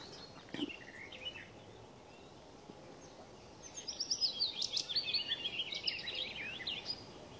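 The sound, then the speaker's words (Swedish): Willow warbler and garden warbler singing on a summer morning. A brief faint phrase comes first, then a longer run of quick, high, warbling notes. All of the song stays soft. “Just nu är det lövsångare och trädgårdssångare som sjunger.”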